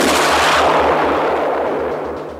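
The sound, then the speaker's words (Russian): An FPV drone exploding: a loud, dense, roaring blast that slowly fades over a couple of seconds, with a steady low rhythmic throbbing pulse beneath it. “Прямо на него летел FPV – дрон, выглядящий точь-точь как оскалившаяся летучая мышь. В следующее мгновение раздался взрыв,”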